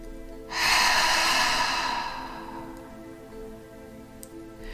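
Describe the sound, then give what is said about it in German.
A deep, drawn-out breath during a guided relaxation exercise, taken in through the nose and let out through the mouth. It is a single long, airy rush that swells quickly, then slowly fades away, with no talking. “Und atme noch mal tief durch die Nase ein und durch den Mund wieder aus.”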